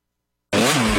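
An ATV engine revs, bursting in abruptly from silence into a loud, sustained, buzzing roar that holds steady for about half a second.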